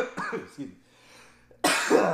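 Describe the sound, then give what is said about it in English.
Human coughing: a few short, rough coughs with breathy gaps, ending in one louder, longer harsh cough. “Coughing. Yeah, it's just like coughing.”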